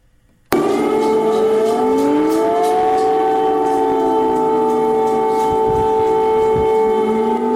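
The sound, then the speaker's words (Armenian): An air raid siren sounds in Kyiv, starting abruptly and holding a loud, sustained wail with strong harmonic tones throughout. “իսկ Ուկրաինայի մայրաքաղաք Կիևում կրկին հնչել են օթային տագնապի ազդանշաններ։”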